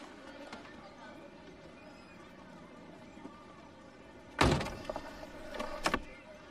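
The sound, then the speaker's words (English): A man steps out of a car. After a quiet stretch with faint rustling, a sharp thump, likely the car door, is followed by a few softer clunks and shuffles. “Peter steps out of the car.”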